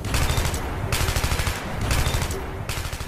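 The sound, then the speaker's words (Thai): Gunfire from a unit of Thai soldiers firing back in a large burst: dense, continuous automatic fire with rapid overlapping shots and a few surges in intensity, loud throughout. “กระสุนวิ่งทะลุร่างนายทหารหลายนายที่ไม่ทันระวังจนล้มกลิ้งไม่เป็นท่าลุงพลและหน่วยของลุงพลจึงยิงตอบโต้กลับไปชุดใหญ”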